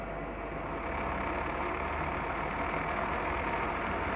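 A machine engine runs while a part is machined, producing a steady, dense droning hum that rises slightly in level early on and then holds constant.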